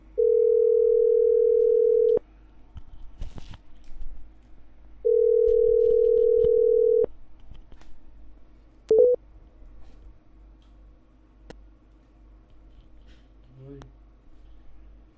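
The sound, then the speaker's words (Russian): Telephone ringback tones on a call: two long, steady, mid-pitched beeps separated by a pause of a few seconds, over a quiet background with faint clicks and one brief sharp blip. “У меня просто гудки до сих пор и не в тех наушниках.”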